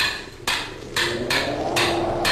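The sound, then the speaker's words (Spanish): A hammer strikes a stuck bolt in five sharp metallic blows at a steady, unhurried rhythm, each hit ringing briefly before the next. “Si este perno se resiste todavía, lo haré saltar de una vez de un martillazo.”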